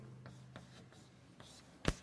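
A mathematical formula with logarithms is written by hand, heard as soft, faint scratching strokes in an uneven rhythm, ending with one sharper tap or click.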